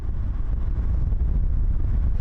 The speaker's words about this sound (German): Wir fahren weiter durch Hadramaut, die größte Region des Jemen.